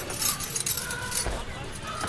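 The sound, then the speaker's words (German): Keys jangling as a key is handed over, a brief, fairly quiet metallic jingle. “Hast du den Schlüssel? Ja, hier.”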